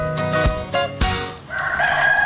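A rooster crows once, a long, loud, strained call near the end, following a few sharp percussive hits.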